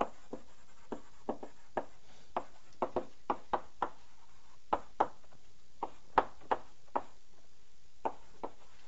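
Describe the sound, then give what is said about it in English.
Math being written out by hand: many short, quiet taps and strokes from the writing tool at an irregular pace, with no talking. “Well, let me write this out.”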